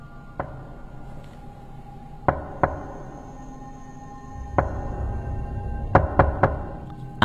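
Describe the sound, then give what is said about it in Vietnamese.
Knocking on a door from outside, heard from within a house: several sharp, hollow raps in irregular bunches (a single knock, a pair, another single, then a quick triple and one more) with quiet gaps between. “thì đột nhiên, ở bên ngoài, tiếng gõ cửa lại vang lên.”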